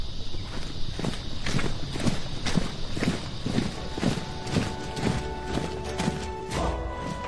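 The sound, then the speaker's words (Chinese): Soldiers' footsteps on the march with an army: a steady tramp of heavy steps in an even, continuous rhythm, fairly loud throughout. “士兵们个个来了精神，脚步不由自主地加快了许多。”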